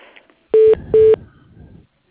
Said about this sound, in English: Let me transfer you to her voicemail, sir.